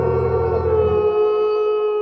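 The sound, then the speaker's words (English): Wolf howl: a single sustained, steady-pitched tone holds for about two seconds with rich harmonics. A low rumbling layer fades out partway through, and nobody speaks. “Then he tilted back his head to look at the full moon, closed his eyes, and howled.”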